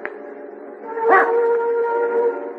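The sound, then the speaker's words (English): A dog howls in a long, sustained, tonal wail that swells louder partway through and holds steady to the end, with no voices. “Dog will bring him right to us.”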